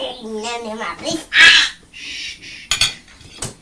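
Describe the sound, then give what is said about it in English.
A child bangs a spoon on dishes at a table, making a few sharp clattering knocks mixed with the child's babbling and other voices. “you shouldn't be using your spoon to bang, it's to eat. No, if you keep banging, I shall take it off”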